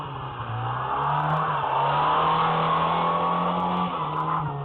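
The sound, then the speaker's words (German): A front-wheel-drive car's engine strains loudly as it is driven in reverse while drifting at a New Year's outing. The drone holds a steady pitch with a few brief dips and stays alone, without voices. “Bei Vorderradantrieb, wenn man driften will, einfach rückwärts fahren.”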